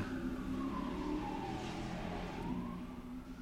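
A police car speeds past with its siren on. A faint wailing tone glides down and then back up over a low engine rumble.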